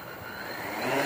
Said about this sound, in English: Now, this is a bit like a helicopter, except it's got six rotors.